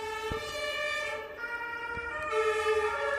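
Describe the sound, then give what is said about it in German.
An ambulance siren passes on a four-lane city street, a loud, steady electronic wail that shifts between pitches in an alternating pattern, with no talk over it. “Jetzt müssen wir mal kurz hier den Rettungswagen durchlassen”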